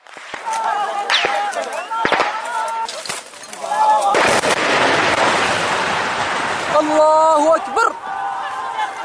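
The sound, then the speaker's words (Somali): Gunfire from heavy and light weapons during an attack at Xawaadley in Middle Shabelle: sharp cracks and booms, then a long dense burst of rattling fire, with a voice speaking over the shooting throughout. “amaliyadda istishaadiyada kadib waxaa bilaabanaya weerar culus oo la isku adeegsanayo hubka culus iyo midka fudud waxayna rasaastu mar qura dhagahooda ka dul shanqareysaa”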